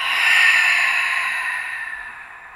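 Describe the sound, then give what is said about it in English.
Deep grounding breath, drawn in through the nose and released through the mouth: one long, airy rush of breath that starts strong and slowly fades, with no talking. “take a deep breath in through your nose. Exhale through your mouth, a grounding breath.”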